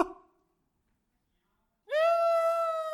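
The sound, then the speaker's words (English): A cat's cry rings out as one long, loud, sustained meow with a steady, whining pitch, following a near-silent stretch. “Now, there's a cry that I hate. I hate this cry. It's a cry of cats.”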